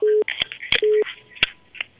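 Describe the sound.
Telephone keypad tones while a call to another number is dialed: a few short, steady electronic beeps separated by sharp clicks and soft line noise.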